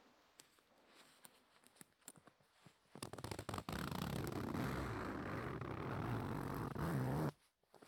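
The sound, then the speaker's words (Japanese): A long zipper on a full-body mascot costume being pulled, with a few soft clicks and rustles first, then a steady grainy rasp lasting about four seconds that stops abruptly. “ベルトの音とセットになった感じが好きです。ファスナーの音は。”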